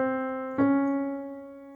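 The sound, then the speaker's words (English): A minor second is played on an instrument: one held note sounds, then a second note a half step away is struck, and both ring and slowly fade together. “first one that's going to come up is a minor second.”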